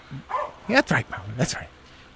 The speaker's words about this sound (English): Muller is barking because he's happy. He's a happy boy.